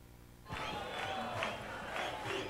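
Live concert audience noise after a song: quiet for about half a second, then a sudden burst of cheering and applause that stays full and steady to the end.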